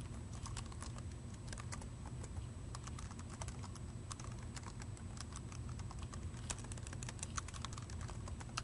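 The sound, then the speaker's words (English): Fingers type a web address on a computer keyboard, a quiet, continuous run of many quick, irregular key clicks with brief pauses between bursts. “So I'll type that in.”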